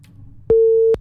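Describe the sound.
A telephone busy signal sounds after a call disconnects: a single loud, steady electronic beep at one pitch, lasting about half a second, with no voices.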